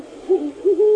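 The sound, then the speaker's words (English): A great horned owl calls alone with a few low, soft hoots, the last one held longer and steadier than the short hoots before it. “That's the call of the great horned owl.”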